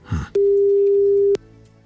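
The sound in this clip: A telephone line tone on an outgoing call: a single steady, mid-pitched electronic beep lasting about one second, preceded by a short muffled noise and followed by quiet line hiss.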